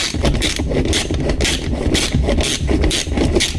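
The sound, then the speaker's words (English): Ratchet wrench working in a steady back-and-forth rhythm, each stroke a harsh rasping burst of fast clicks, repeating about twice a second at an even, fairly loud level. “Now, of course, this is a ratchet that we're hearing here.”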